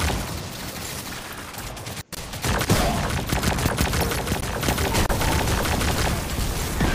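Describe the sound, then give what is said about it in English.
Rapid gunfire from a Hydra enemy during a Gambit public match in a video game: dense, loud volleys of shots in a continuous stream that cut out once, briefly, before resuming just as heavily. “I'm getting shot at in the face by a dumb Hydra.”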